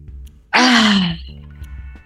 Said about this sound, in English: let's end with a deep breath. Inhale. Let it out.